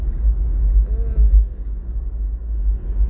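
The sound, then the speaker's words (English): A car drives over a lake at night with a steady, deep rumble of engine and road noise that holds at a constant loudness throughout. “I'm driving over the lake right now.”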